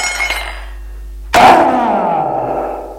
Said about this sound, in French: Tout à coup, un bruit de vitre.